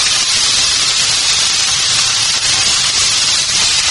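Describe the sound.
Sizzling of food frying in a small pan with a little olive oil, a steady loud hiss that holds unbroken throughout with no talking.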